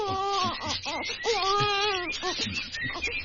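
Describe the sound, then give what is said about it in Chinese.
A baby cries in a series of thin, wavering wails and short sobbing bursts that rise and fall in pitch, fairly faint and continuous throughout. “呢度左紧冇人噶，点解有苏虾仔嘅喊声？”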